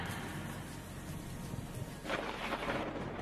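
Faint, low thunder rumbling under a steady rain-like hiss, swelling a little louder toward the end.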